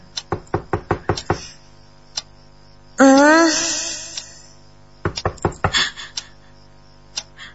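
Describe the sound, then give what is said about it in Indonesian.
Knocking on a bedroom door in the middle of the night: a quick run of sharp raps, a pause, then another burst of raps and a final lone knock. “kudengar seperti ada yang mengetuk pintu kamar. Siapa yang mengetuk pintu tengah malam begini?”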